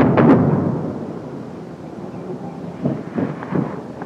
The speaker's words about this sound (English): Too close. Airstrike.